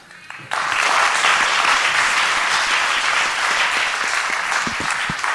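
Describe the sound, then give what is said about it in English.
Applause from a church audience for the teens bursts in after a quiet half second, then holds as a full, dense wash of clapping with no voices over it. “But let's give a big hand to the teens today.”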